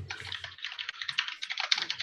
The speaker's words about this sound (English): I'm going to type them down